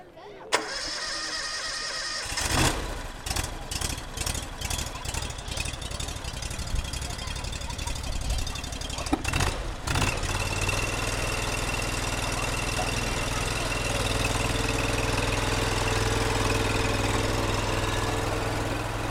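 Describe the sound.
A new machine's engine cranks with rapid rhythmic pulses for several seconds, then catches and settles into a steady, low, droning idle that continues to the end.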